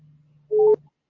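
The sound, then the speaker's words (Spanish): A telephone line tone sounds after a dropped call: a single short, mid-pitched beep rises over a faint low hum, then fades into silence. “hemos perdido el contacto.”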